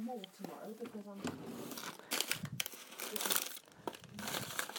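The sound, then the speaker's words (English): Cardboard packaging and household rubbish being handled and crumpled, producing crinkling, crushing rustles in a series of uneven bursts, with a voice briefly at the start. “Because we've had so much delivered lately that there's just kind of ridiculous amounts of card everywhere. And I've just found a load of rubbish as well.”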